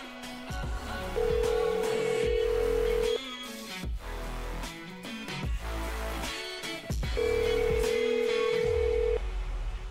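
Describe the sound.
Telephone line tones after the phone is unplugged: two long, steady low tones of about two seconds each, heard over a loud, busy, rhythmic background.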